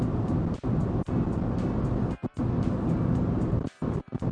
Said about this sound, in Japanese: あんま音変わんないね、やっぱりね。だいたい100キロ前後で走行してればまあいいでしょう。今95キロぐらいですけど。